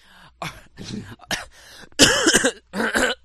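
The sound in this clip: Wet, phlegm-raising coughing and throat clearing: a rapid string of several harsh bursts, the later ones louder and partly voiced.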